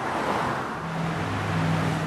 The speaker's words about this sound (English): the cars whizzing by on a typical American highway